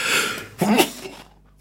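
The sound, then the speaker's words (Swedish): A single short sneeze bursts out abruptly, followed by a breathy, fading exhale that trails into near silence. “Oj, där kommer en nysa, tack.”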